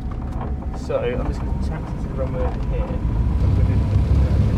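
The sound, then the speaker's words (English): A light aircraft's engine rumbles steadily as the plane starts moving and taxis toward the runway. The drone is constant and low, and voices are heard over it. “We are on the move. On the move, here we go.”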